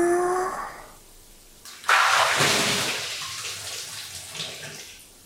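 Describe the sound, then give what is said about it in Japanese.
Hot water is poured over someone in a bath, a sudden broad splashing rush that starts loud and slowly fades away over several seconds. “んじゃ、お湯かけるからな。”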